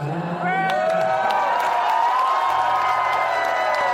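A White House audience cheers enthusiastically after the South Korean president sings. Loud, sustained crowd noise carries high-pitched whoops and shouts that rise out of the mix early on, then settles into a steady roar.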